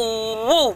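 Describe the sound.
A voice imitates the strange noise of a car engine that will not start: a steady buzzing hum that swells and bends upward in pitch, then drops and cuts off.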